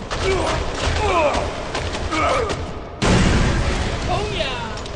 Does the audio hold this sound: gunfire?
yes